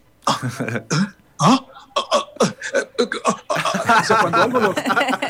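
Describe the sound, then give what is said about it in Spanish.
A voice imitates a choked, gasping anime-style surprise reaction: a rapid string of short, strained gasps and throat catches, ending in a longer rough, rasping stretch. “el estilo de actuar para anime es un poco exagerado, muy expresivo, fuerte, con volumen alto, sí, y las reacciones, los japoneses reaccionan para todo. Uh-huh. Voltean la cabeza y hacen...”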